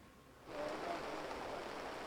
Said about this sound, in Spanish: Y llueve ahora con especial intensidad en la capital del Principado de Asturias.